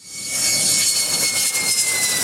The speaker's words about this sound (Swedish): De 2 nya stridsflygplanen landade idag på militärbasen i Taitung på Taiwan.